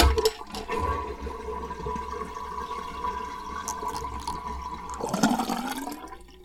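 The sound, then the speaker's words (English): Water filling a bathroom sink about halfway and then draining. A steady rushing flow runs for several seconds, then shifts near the end to a louder, swirling surge. “I'm going to fill the sink up about halfway and let it go down again, because it's noise”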